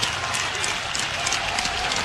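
Crowd noise at a college baseball game involving Iowa, with runners at the corners and two outs: a continuous, dense roar of cheering and clapping that stays level throughout.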